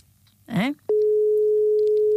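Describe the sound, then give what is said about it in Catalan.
Telephone ringing tone for a call, a steady, unbroken electronic tone at one fixed pitch held loudly for over a second, preceded by a brief vocal sound. “Per què no contestes? Bueno, et tornen a trucar, aviam què passa.”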